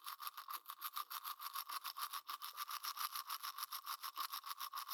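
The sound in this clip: Rapid toothbrush strokes scrubbing teeth, with many regular back-and-forth passes forming a bright, hissing, evenly pulsing rhythm heard alone.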